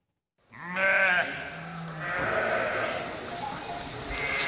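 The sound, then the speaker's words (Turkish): Merino sheep and a newborn lamb bleat on a livestock farm, with a few wavering bleats in quick succession followed by lower, rougher calls against steady background noise. “Balıkesir'deki bir hayvancılık işletmesinde dünyaya gelen merinos cinsi kuzunun aynı anda iki annesi oldu.”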